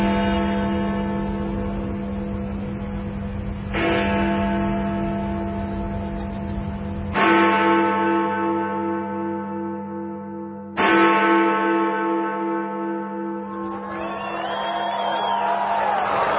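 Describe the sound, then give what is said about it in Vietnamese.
Big Ben, the deep clock bell in London with its cracked bell, chimes: a few slow, evenly spaced, resonant strikes, each ringing out and lingering with a rich hum before the next. “quý vị nghe cùng một tiếng chuông trầm, nhưng gõ vào chuông ở khoảng cách khác nhau đến chỗ bị nứt mẻ do hai cái búa khác nhau, thì sẽ tạo ra hai âm thanh hơi khác nhau một chút”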